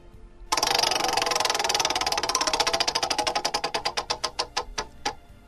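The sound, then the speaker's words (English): A spinning prize wheel gives a loud rush of rapid clicks that gradually slow into separate, evenly spaced ticks before coming to rest. No voices are heard. “Let's spin the wheel.”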